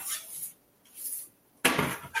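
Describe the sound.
A tray of baked cookies is set down on top of a stove, landing with one sharp, bright clatter near the end, after soft hissing noises.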